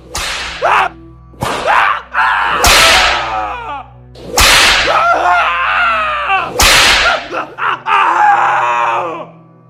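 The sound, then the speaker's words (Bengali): Several whip lashes crack sharply against sepoys tied to trees by British soldiers, each loud snap answered by anguished screams and groans of pain. “গাছে বেঁধে চাবুকের আঘাতে ছিন্ন ভিন্ন করে”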